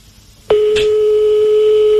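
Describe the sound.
A telephone line tone sounds for an outgoing call: silence, then a click as a steady, unbroken tone starts and holds to the end. No one speaks.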